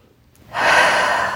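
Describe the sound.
A single big, deep breath is drawn in during a tapping relaxation exercise. It starts abruptly after a short silence and becomes a loud, steady, breathy rush that holds to the end.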